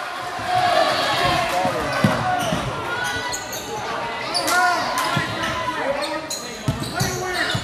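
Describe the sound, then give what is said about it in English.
Basketball dribbling on a court during a game: many rhythmic bounces under crowd noise and people talking. “Dribbling.”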